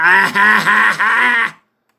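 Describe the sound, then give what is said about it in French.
A voice imitating Pinocchio crying lets out a loud, sustained run of wailing sobs, about four drawn-out cries in a row that stop abruptly into silence. “Pourquoi tu pleures, Pinocchio? Pourquoi tu pleures, Pinocchio?”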